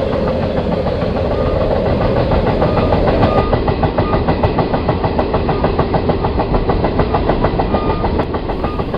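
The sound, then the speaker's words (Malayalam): A train pulls into a station platform with a loud, steady rumbling drone. Partway through, a rhythmic clickety-clack of wheels becomes distinct. No voices are heard. “വണ്ടി പ്ലാറ്റ്ഫോമിലേക്ക് പ്രവേശിച്ചു തുടങ്ങി.”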